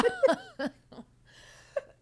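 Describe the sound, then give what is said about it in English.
A smoker's cough, sounding as a few harsh, raspy bursts packed into the first second, then a softer hack near the end. The bursts sound broken and throaty, close to laughter. “You're making my smoker's cough come back.”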